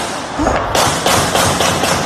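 Rapid automatic gunfire in a residential neighborhood of Bellefontaine, captured on a resident's phone video: a fast, steady run of sharp, loud bangs. Each report cracks across a wide range and follows closely on the last.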